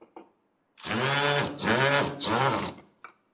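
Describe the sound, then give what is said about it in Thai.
Motor whine from a cordless drill with a Phillips bit driving a screw, rising in three close surges over about two seconds, with short clicks just before and after. “สว่านหัวที่เป็นหัวสกรูไลแฉกนะครับที่ใช้ในการขันสกรูไลน็อตตัวนี้นะครับเสร็จแล้วเรามาร์กเกอร์เข้าไปในตำแหน่งที่เราต้องการนะครับแล้วก็ยิงสกรูไลเข้าไป”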